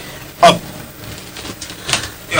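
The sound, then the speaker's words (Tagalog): A drawer of an antique wooden cabinet being opened: a few short clunks and scrapes, with one sharp knock early and another pair near the end. “Nagkanto siya sa antik na kabinet. Oh? Bigin buksan siya ng drawer?”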